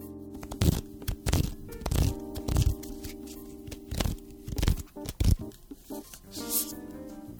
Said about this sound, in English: each episode by pulling a card at random from my affirmations card deck by Gabrielle Bernstein. This card will set the intention for the episode. So let's see what today's affirmations will be rooted in.